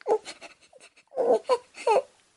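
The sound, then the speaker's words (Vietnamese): A young girl sobbing while pleading, in short broken, wavering cries separated by brief pauses, with the later bursts louder and more strained. “Tiểu Thư Tuyết khóc nức nở cầu xin.”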